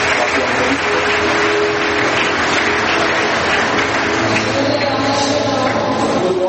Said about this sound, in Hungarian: Tegyük össze a kezünket az ő számára. És tapsoljuk meg.